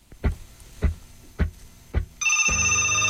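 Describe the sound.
A telephone rings with an incoming call: four low thuds at even intervals, then a steady, loud electronic ring tone with buzzy harmonics held to the end.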